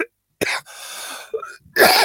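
Harsh, breathy coughing from a person with a lingering cough: a few short, loud bursts separated by gaps, with a quieter raspy stretch between them.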